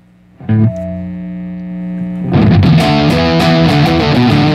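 Heavily distorted electric guitar tone played through an amp: one buzzing sustained note rings out first, then loud, gritty chords crash in and keep chugging to the end.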